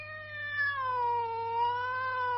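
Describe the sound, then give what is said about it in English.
A cat gives a long, drawn-out meow, steady and tonal with a slight dip in pitch partway through, held alone over a faint low hum. “How you doing, pretty kitty? Did you miss me? Of course you did. Good kitty.”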